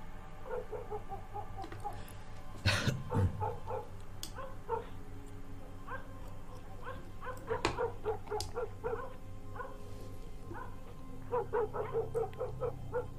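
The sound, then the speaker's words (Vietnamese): Dogs bark and yip in the distance at night: many faint, scattered barks and whimpering yelps come in irregular bursts over a steady low hum, with no voices. “Thi thoảng xa xa văng vẳng tiếng chó cắn ma nhấm nha nhấm nhặng, nghe đến sốt cả ruột.”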